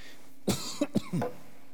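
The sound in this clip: Coughing and throat clearing from a tickle in the throat: a few short, sharp bursts close together, heard alone without any talk.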